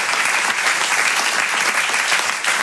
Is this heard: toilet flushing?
no

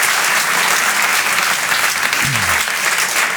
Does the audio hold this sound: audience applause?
yes

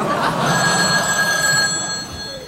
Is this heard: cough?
no

